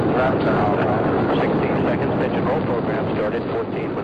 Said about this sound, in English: Liftoff. We have liftoff with Apollo 14.